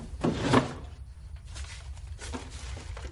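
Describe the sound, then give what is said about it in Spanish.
A desk drawer is pulled open in one short scraping burst. A few fainter knocks and rustles follow, with no talk. “Rodrigo le autoriza con un gesto desganado y Pedro abre el cajón del escritorio.”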